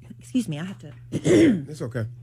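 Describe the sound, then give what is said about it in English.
Throat clearing from a person with something in their throat: a few short, rough voiced bursts, the loudest and longest in the middle, with no talk over them. “A little something in my throat.”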